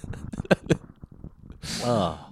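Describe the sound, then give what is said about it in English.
Throat swallowing liquid, picked up by a microphone pressed against the throat. Muffled voice-like sounds come first, then a breathy, rushing burst near the end. “Like, what you first hear is the throat closing off so the liquid doesn't go in, and then you get the release.”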